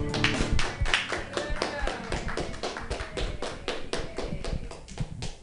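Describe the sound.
Applause for a performer at a Friday happy-hour open mic before the holidays: many sharp claps in a steady, fast patter that keeps going without a break, with a few voices mixed in.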